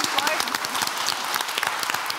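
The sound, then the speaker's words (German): A short burst of enthusiastic audience applause for a contestant's correct answer on a German show: dense, rapid clapping at a steady level throughout. “Applaus bitte”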